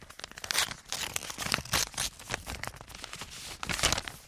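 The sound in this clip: Paper crinkling and ripping as an envelope is torn open by hand in front of a microphone at a mock awards ceremony, a string of crisp, irregular tears and rustles.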